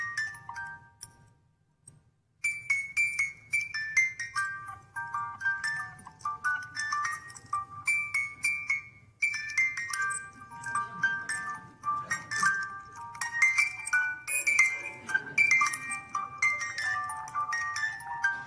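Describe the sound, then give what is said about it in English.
A small music box plays a tinkling tune, bright high plucked notes forming a steady flowing melody, with a faint low hum underneath. “Anyway, so she brings back a little music box for the kids,”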